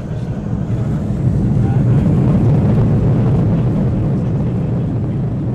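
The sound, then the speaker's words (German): An Airbus A319 airliner's engines roar as it speeds down the runway and takes off, a loud, steady, low rumbling wash that holds its strength without a break. “Kurz dröhnt es über die Startbahn und dann hebt der Airbus A319 ab und steigt und steigt und steigt.”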